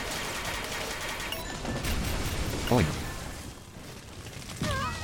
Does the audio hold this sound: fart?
no